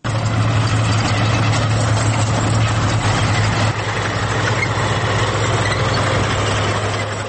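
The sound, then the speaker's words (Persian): Idling engine of an old Russian T-62 tank still used in Afghanistan, a heavy, even low-pitched rumble with a knocking mechanical texture, dipping slightly in level partway through and then holding steady. “این صدای تانک T-62 روسی است که از ساخت آن چندین دهه سپری می شود.”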